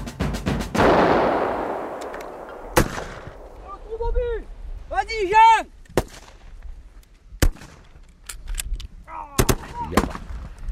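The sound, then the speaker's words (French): Gunfire at the front: a quick opening burst of shots with a long rumbling tail, then several more sharp, isolated gunshots spaced irregularly across the stretch. “Ah, ça tire là encore.”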